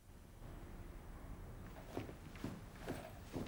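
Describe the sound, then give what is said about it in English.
Footsteps of a man striding through a corridor and up stairs: four faint, evenly spaced steps in the second half over a low background hiss. “Hussein strides through a corridor and up the stairs to his living apartments”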